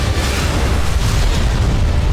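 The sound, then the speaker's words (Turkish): A TOLUN guided bunker-buster munition strikes its target during a test firing, producing a deep, loud blast roar that stays heavy and steady across the whole moment. “Savunma sanayinin yeni gözdesi sığınak delici Tolunpe hedefi tam isabetle vurdu.”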